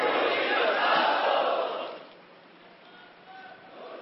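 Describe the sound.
A crowd chants a written slogan in praise of their spiritual guide at a religious gathering. The shouting is loud and massed for about two seconds, then drops to a quieter murmur.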